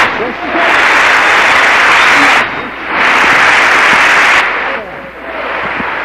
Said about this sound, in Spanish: Un aplauso, Señor.